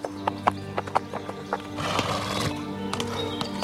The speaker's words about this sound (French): Cet homme qui vient d'arriver à cheval au château de Dormans s'appelle Louis Carlet de la Rosière.